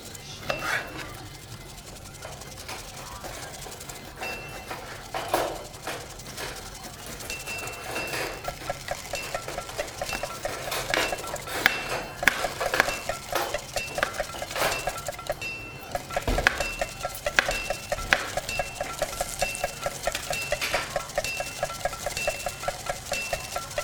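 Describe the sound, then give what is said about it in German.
Rice is stirred into a pan of vegetables with a cooking utensil, producing soft, continuous scraping and many small clinks against the pan, fairly quiet throughout. “den Reis vorsichtig unter die Gemüsepfanne heben. Oder auf gut Deutsch umrühren.”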